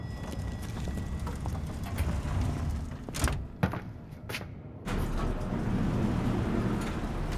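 Elevator doors and lift mechanism of elevator 4: a steady mechanical hum, then a few sharp clunks and sliding thumps from the doors in the middle, followed by a louder continuous rumble as the car runs.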